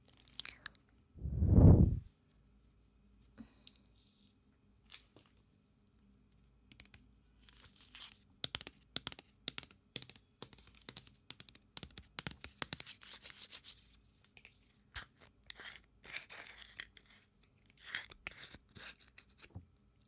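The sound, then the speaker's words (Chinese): A jar of body scrub is opened: one loud tearing rip early on, then many soft, irregular crinkles, scrapes and clicks as the container is handled. “现在就要打开磨砂膏”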